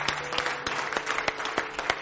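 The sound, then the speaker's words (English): Congregation applause at an evening church service, a steady run of crisp, scattered hand claps with a few sharper accents, moderately loud and with no voices over it. “Let's give him a hand clap tonight.”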